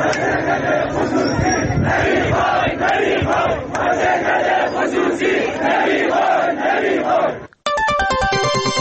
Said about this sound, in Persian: سایت باشگاه خبرنگاران جوان نیز در این مورد فیلمی از اعتراض کارگران این شرکت به خصوصی سازی این واحد تولیدی را پخش کرد که بخشی از آن را می‌شنوید.